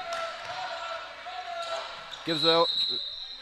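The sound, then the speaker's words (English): A basketball dribbled on a court during a college game, with a few sharp bounces under continuous talk. “He'll dribble over to the left side.”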